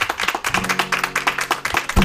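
Studio audience applause for a performer, heard as distinct, rapid hand claps in an uneven rhythm, many in quick succession, with a sustained musical tone underneath for much of the stretch.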